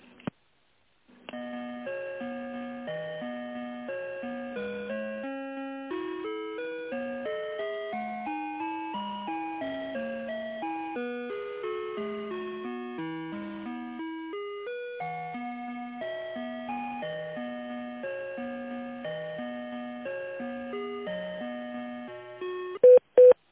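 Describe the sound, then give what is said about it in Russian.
Electronic telephone tones play as a bright, beeping melody of pure notes while a business call is transferred to a secretary. The melody runs steadily for about twenty seconds and ends with a couple of sharp clicks. “Ой, я на секретаря сейчас вас переключу, секунду.”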